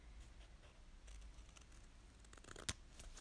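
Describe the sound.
Scissors trimming an oversized paper label for a homemade potion bottle, faint soft snipping and rustling with one sharper cut near the end.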